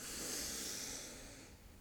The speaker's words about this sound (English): take one deep breath in through the nose.